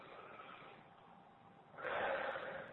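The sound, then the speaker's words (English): A deep breath drawn together by a group during a grounding exercise: a soft, steady airy hiss swells into a louder, fuller breathy rush for the final second. “So everyone just take a deep breath.”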